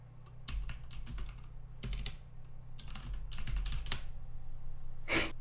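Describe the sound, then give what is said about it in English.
Typing a message on a computer keyboard, with clattering flurries of keystrokes broken by brief pauses and growing busier toward the end. “I need you to type to Elias right now, no context, did you finish?”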